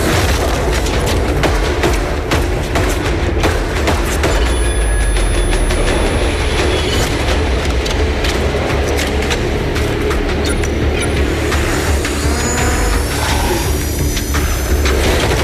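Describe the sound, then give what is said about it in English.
Cinematic trailer audio from the Call of Duty 3 video game: a dense, loud, continuous rumble with deep booms, metallic clatter like rolling rail cars and high screeching squeals, sustained without pause throughout. “Dramatic stuff. That is some of the cinematic, thematic trailer to Call of Duty 3.”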